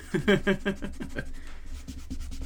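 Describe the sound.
A pen scribbles on paper during a word game, a run of quick scratchy strokes, sharper and louder at first and then softer and more even.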